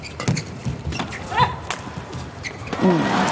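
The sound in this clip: A table tennis ball is served during a match. A few sharp, light taps of ball on paddle and table sound beneath a commentator's ongoing voice.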